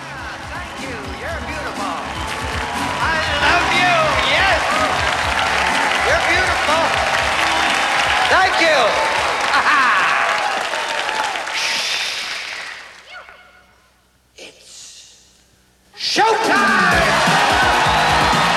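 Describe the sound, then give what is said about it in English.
A studio audience at a television game show rises to its feet, applauding and cheering as the showman producer enters: loud, dense clapping with whoops and yells for about twelve seconds, then it fades to near silence before another loud burst cuts in. “The producer of The Running Man and everyone's favorite showman, Damon Killian! The crowd rises to its feet.”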